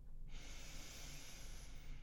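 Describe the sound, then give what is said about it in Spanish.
A slow, deep breath during a guided relaxation exercise, one long, soft, airy hiss sustained for most of the moment, faint and without talk. “De nuevo, respira profundamente, despacio, con una sonrisa.”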